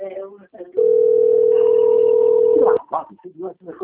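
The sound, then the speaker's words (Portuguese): A telephone tone signals an incoming call from a bank: one steady mid-pitched tone held for about two seconds, with people talking before and after it. “Estou recebendo a ligação aqui. Estou recebendo a ligação do banco.”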